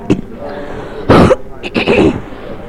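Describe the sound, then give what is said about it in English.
A person coughing, a few harsh, throaty bursts: a short one at the start, then two louder rough coughs spaced apart, heard alone with no talk. “still got the cough. but it's getting better.”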